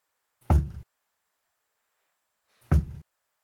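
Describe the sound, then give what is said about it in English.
Knocking on a door comes in two short, separate bursts a couple of seconds apart, each a quick cluster of dull, low thuds with silence between and no voices. “There is a knock on the door.”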